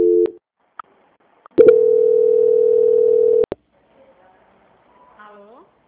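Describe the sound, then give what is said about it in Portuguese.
Telephone tone while a caller is held and transferred to a bank's quality-control line: a brief tone, then a long, steady, mid-pitched tone lasting about two seconds, followed by near silence and a faint voice at the end. “que vou estar transferindo o contato para o controle de qualidade, que dará continuidade à sua contratação. Continue em linha, tá bom? Só um minuto. Transferência.”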